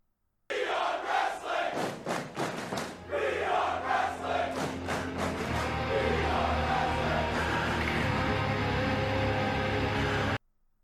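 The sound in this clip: A live wrestling crowd at AEW Full Gear roars loudly, with rhythmic chanting bursts early on that give way to a sustained, dense wall of cheering.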